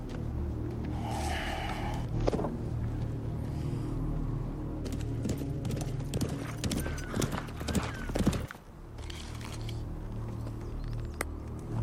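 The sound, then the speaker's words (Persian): Horse hooves clip-clop as a rider approaches, a continuous stream of hoof beats over a steady low rumble. “سوار نزدیک میشه.”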